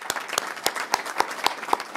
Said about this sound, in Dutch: Applaus.